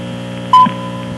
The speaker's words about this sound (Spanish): establecer nuestra hora exacta con el reloj atómico. Aquí está la hora exacta. Atención. Al oír el tono serán las 6 horas, 25 minutos, 0 segundos.